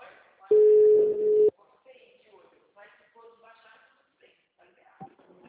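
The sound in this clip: A single steady telephone tone sounds while a call is being placed. It is loud and even-pitched and lasts about one second, then gives way to talking.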